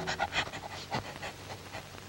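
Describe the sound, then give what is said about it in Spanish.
A hunting dog, a female following a scent with her nose to the ground, sniffs and pants in quick, rhythmic breaths, faint and alone. “Con el hocico pegado a la tierra, huele que huele, viene la perra”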